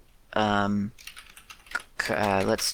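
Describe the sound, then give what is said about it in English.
Keys on a computer keyboard are typed to enter a backtick, leaving a few soft, sharp clicks in the pause between two stretches of someone talking. “And instead of a quote, you do a backtick. Or is that a backtick? Yeah, a backtick. And then you type in some word.”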